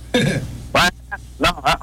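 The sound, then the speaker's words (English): A duck quacks in a few loud, raspy bursts spaced irregularly, with a fainter short call between them and no talk over it. “Oh, it's not the dog. It's the duck.”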